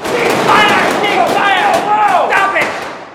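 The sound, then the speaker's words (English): Gunshots in a scene from a Wes Anderson film: several sharp cracks mixed with excited voices talking over them, loud and busy throughout. “Who's shooting who?”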